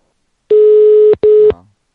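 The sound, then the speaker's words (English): Two electronic beeps from pressing numbers on a telephone keypad. A long, steady mid-pitched tone is followed after a tiny gap by a shorter one of the same pitch, clean and loud against silence. “Let's see if I hit numbers, will it make something happen? You can try to get through it. Did it beep for you?”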